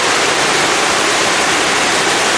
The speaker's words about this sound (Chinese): 怎么样，是不是很有壶口瀑布的感觉啊？但是这真的不是黄河，而是清水河。